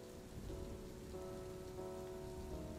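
Steady rain falls on a surface as a continuous, quiet hiss of drops. A faint sustained tone runs underneath.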